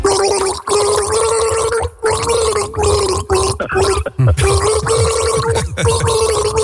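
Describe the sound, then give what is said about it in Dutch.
A person gargles a classic song with water, voicing the tune as a loud, bubbling, wet gurgle in many rhythmic phrases broken by short pauses for breath, with the melody carried through the water. “een klassieker ingegorgeld. Ik zal hem nog één keer laten horen”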